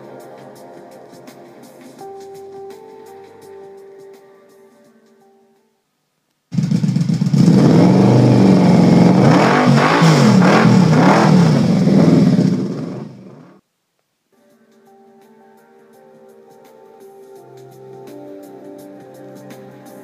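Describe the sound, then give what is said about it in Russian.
A loud, roaring engine rev from a grimy hoverbike throwing gravel in all directions. It bursts in suddenly, holds for about seven seconds at full strength, then cuts off, with quieter passages before and after. “Гравий полетел во все стороны, и перед Тайкусом возник чумазый ховербайк-стервятник.”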